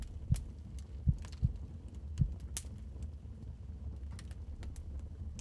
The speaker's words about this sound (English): Here, it is the beating of his hideous heart.